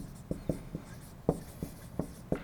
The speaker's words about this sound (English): I'll try to write it out.